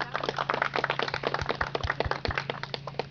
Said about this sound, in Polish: Witamy bardzo serdecznie, poproszę o klaski.